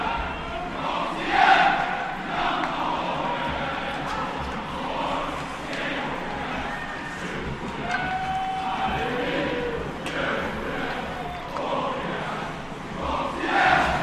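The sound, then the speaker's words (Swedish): Crowd noise from spectators at a sports match: a continuous murmur of many voices that swells slightly near the start and again at the end. “Och så lite publik på det också, om man hör den.”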